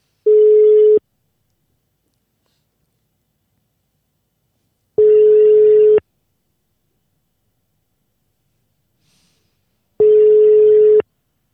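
Telephone line ringback tones as a phone call connects: three steady, mid-pitched one-second beeps, evenly spaced with silence between them.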